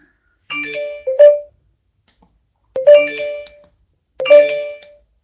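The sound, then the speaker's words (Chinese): A phone's WeChat ringtone plays a bright, bell-like chiming melody in three separate bursts with short gaps between them, loud and without any talk. “呀，我得把这微信关了。”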